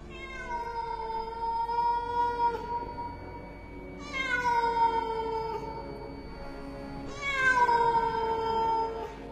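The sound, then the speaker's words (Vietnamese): Cats yowling in long, wailing cries like crying babies. Three loud, drawn-out calls come one after another, each sliding slightly lower in pitch, with no talk. “Vừa mới chạy liền nghe thấy phía sau vang lên tiếng mèo, giống như tiếng trẻ con khóc nỉ non, hết đợt này đến đợt khác, tạo thành những âm thanh vô cùng đáng sợ.”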